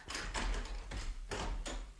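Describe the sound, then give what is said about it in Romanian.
A door shuts and its lock turns in a radio play of The Marriage of Figaro: a few heavy wooden clunks and knocks, fairly faint, with no voices. “Hai, ascunde-te dincolo. Încuie ușa și nu suflă o vorbă. Hai, repede.”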